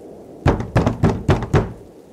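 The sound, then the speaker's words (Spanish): Five firm knocks on a door land in a quick, evenly spaced run. Each sharp hollow rap stands alone against quiet, with no talk. “Se despidió y después de colgar el teléfono llamaron a la puerta.”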